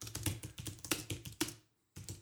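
Faint, rapid typing on a keyboard as a message is written: irregular clusters of clicking keystrokes, a short pause near the end, then the tapping resumes.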